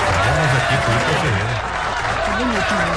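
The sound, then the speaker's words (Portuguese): Dense, continuous applause for surfer Ítalo Ferreira, a man from Bahia Formosa, Rio Grande do Norte, holding at an even level throughout while a male voice talks over it. “Então vamos aqui aplaudir Ítalo Ferreira, um homem de Bahia Formosa, no Rio Grande do Norte.”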